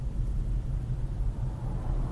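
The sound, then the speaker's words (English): Road traffic produces a steady, low rumble of passing vehicles that stays at a constant level with no distinct events and no voices. “Why is there traffic right now, son of a bitch?”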